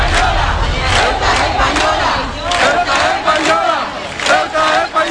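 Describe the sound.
A large street protest crowd in Ceuta shouts together in loud, sustained collective cries that swell and surge in rhythmic bursts over about five seconds.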